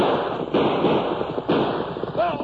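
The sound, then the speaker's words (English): Gunshots crack through a radio drama shootout, a few sharp bangs spaced about a second apart over a dense, noisy background bed. “Guns will be blazing.”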